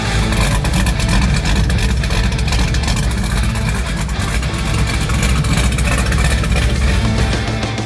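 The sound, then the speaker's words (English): Loud, rumbling exhaust from a supercharged Volvo 240 with an LS V8 swap, its choppy, lumpy note running steadily for about eight seconds with no talk over it. “that is Devin's LS swapped Volvo 240. You heard it last week. A clip of it with the supercharger whine and all of that good stuff. That's a different clip there that kind of features more of that choppy exhaust note”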